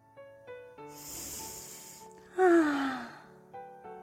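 A long, deep breath from a little rabbit in a children's story, voiced by a person: an airy inhale of about a second, then a louder, sighing exhale over quiet background music.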